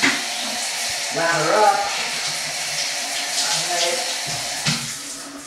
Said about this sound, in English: Okay, so we're ready with the Navy shower. And go.